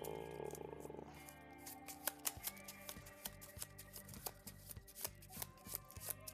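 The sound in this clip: Playing cards being shuffled by hand during a tabletop card game: a dense riffling rustle, then a run of crisp, rhythmic flicks and snaps over steady background music.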